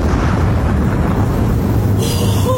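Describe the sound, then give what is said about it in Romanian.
Bridge blown up by pulling a detonator wire during fighting at a mountain pass: a loud, dense, continuous roar and rumble that fills the whole stretch with no pause and no voices. “Anselmo, hai, aruncă podul în aer. Trage sârma cu putere.”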